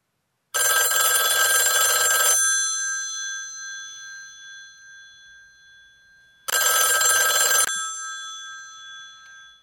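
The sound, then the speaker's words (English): A telephone rings as a call is placed, in two bursts of loud, bright, trilling rings. Each burst is followed by a long, slowly fading ringing tail, and no one talks. “I have to call Canyon.”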